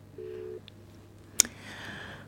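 A telephone line tone heard on a radio call-in: one short, steady low beep, then a sharp click and the faint hiss of an open line.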